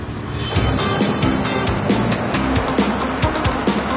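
A 1959 car, a replica of a movie ghost-hunting car, drives off with a loud, steady engine rumble under broad road and tire noise, marked by a few sharp clicks along the way.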